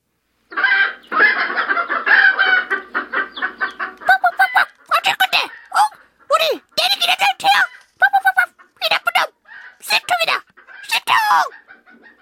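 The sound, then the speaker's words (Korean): Chickens cluck and squawk excitedly as they rush at someone: a loud, continuous harsh cackling gives way to many short, sharp bursts of calls in uneven rhythm. “닭들은 신이 나서 닐슨에게 때로 달려들었다.”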